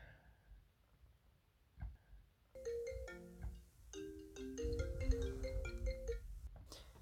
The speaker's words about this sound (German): Von daher werde ich den jetzt einfach mal direkt anrufen und überraschen.